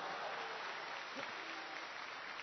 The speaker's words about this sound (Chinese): 可以鼓掌了啊